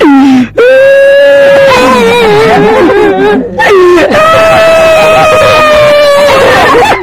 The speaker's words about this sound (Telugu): ఏం రా పద్యం చెప్పు అంటే ఏడుస్తున్నావు.